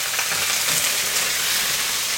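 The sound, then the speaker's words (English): Garlic and pasta sizzle in a frying pan, with rosemary in the dish. The hiss is steady, bright and crackling, and no one talks over it. “Okay, our garlic is starting to brown. I'm going to add my pasta right away.”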